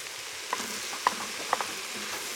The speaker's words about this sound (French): Donc là, tu viens d'ajouter l'ail, hein, c'est oui, ça.